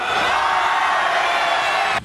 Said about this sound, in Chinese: 7月24号，学员们来到东北超哈尔滨队主场对阵长春队的比赛现场，为东道主呐喊助威。